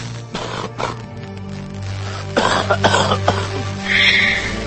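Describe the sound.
A man sitting and coughing repeatedly: several harsh, rasping bursts in uneven clusters over a steady low hum.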